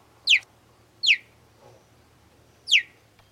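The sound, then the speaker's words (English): Three high, sharp chirps from a cheetah, each sweeping quickly downward in pitch and spaced unevenly apart. A fainter, lower sound falls between the second and third. “No, that wasn't a bird chirping. That was actually a cheetah. Most people expect these cats to sound more like a lion or a tiger. But actually, the most common sound they make are these cute little chirps.”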